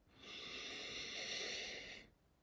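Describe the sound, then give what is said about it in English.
A long, deep inhale through the nose during a guided breathing exercise: a soft, steady airy hiss that holds evenly for about two seconds, then stops. “And now let's take three more deep breaths. In through the nose.”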